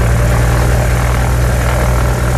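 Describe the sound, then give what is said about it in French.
A small propeller aircraft takes off with its engine droning loudly and steadily, a deep, unbroken hum that holds constant throughout. “On pose les valises sur les genoux et on décolle.”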